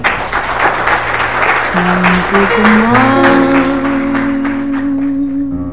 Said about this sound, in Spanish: Recibamos con un fuerte aplauso a la elegancia hecha realidad.